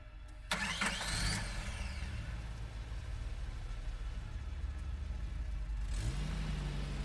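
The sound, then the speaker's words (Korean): A car engine cranks and catches, then settles into a steady low idle after 1 a.m., with a short rising whine near the end and no talk. “하지만 M은 아무래도 달리고 싶었는지 차를 꺼냈다.”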